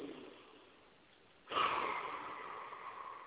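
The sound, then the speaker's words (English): A deep breath is taken during a call-in talk show. At first there is only a faint, quiet stretch, then a sudden loud, airy rush of breath about halfway through that slowly tapers off. “But let me just take a deep breath.”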